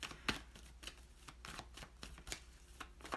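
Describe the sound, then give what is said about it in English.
Crisp papery rustles and flicks of a tarot deck as a card is drawn, a string of brief sharp bursts of uneven rhythm over a low steady hum. “Okay. Let's pull another card.”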